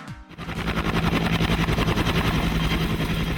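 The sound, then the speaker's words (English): A helicopter's rotor beats in a fast, steady, loud chop over a continuous engine drone, starting after a brief quieter moment. “And that is the sound of a helicopter.”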